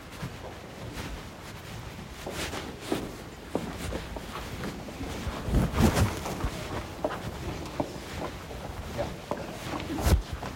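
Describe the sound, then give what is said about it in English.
A group walks up a ramp inside a church. Their footsteps are irregular and overlapping, with scattered heavier thuds over a low background murmur. “All right, we're going to walk up the ramp here.”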